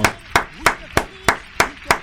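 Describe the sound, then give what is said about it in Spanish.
Sharp, evenly spaced claps celebrate a lottery prize winner at an official quiniela agency, each crisp and loud in a steady rhythm with quieter background sound between them. “¿Le brindamos aplauso? Le brindamos aplauso entonces. Muy bien el aplauso, Jenny.”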